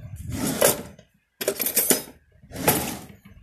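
Clinking of a tiny coffee cup, about the size of a phone, and a spoon being handled, in three short bursts of clatter separated by brief pauses.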